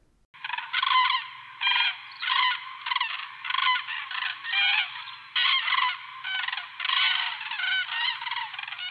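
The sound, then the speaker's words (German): Common cranes calling, with many harsh, honking trumpet calls in quick, overlapping bursts that continue throughout. No voices are present. “Bei schlechter Sicht, durch Regen oder Nebel, halten Kraniche durch ihre Rufe untereinander Kontakt. Aber nicht nur im Flug unterhalten sie sich oft. Sie sind auch sonst ziemlich gesprächig.”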